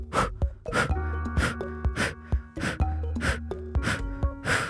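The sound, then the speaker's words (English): Rapid, forceful breaths drawn in through the nose for a breathing exercise: a steady run of many short, sharp, hissing sniffs at an even rhythm, fairly loud and with no talk. “the bliss breath, which is just through the nose. It sounds like this.”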